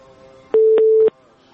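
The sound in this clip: A telephone tone after a call is disconnected: one steady, mid-pitched beep lasting about half a second, set off by sharp clicks at its start, middle and end, over a faint hum.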